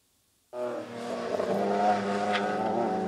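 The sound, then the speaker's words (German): Race cars drive on a small racetrack of about two kilometres near Padborg during a company event. The engines cut in abruptly and keep up a loud, steady, harmonic drone to the end. “Rennfahrer für einen Tag. Das erleben die Kunden heute bei diesem Firmen-Event nahe Padborg.”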